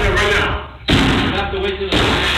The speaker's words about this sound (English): they start kicking the door